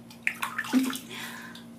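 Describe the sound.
Water splashes and sloshes as a body is washed, with a few brief wet swishes and splashes, then softer trickling water.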